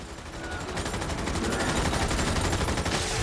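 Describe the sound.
Rapid automatic gunfire from a film action sequence: dense, overlapping shots fired in fast succession, loud and continuous throughout the short stretch.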